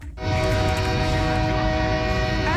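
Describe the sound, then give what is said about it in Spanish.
Train horn blaring from a train heading to Calexico, a loud sustained chord of steady tones held unbroken for over two seconds above a low rumble of the rail cars. “El tren hacia Calexico.”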